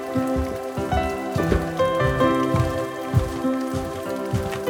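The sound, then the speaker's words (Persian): Rain falls on a surface in a steady, dense patter, with scattered louder drops standing out. No voices are heard. “آره بارونه بریم داخل.”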